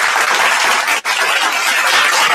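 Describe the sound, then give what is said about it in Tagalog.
Audience applause, a dense and even wash of many hands clapping at steady loudness, with one brief dip midway before it resumes. “Palakpakan natin yan.”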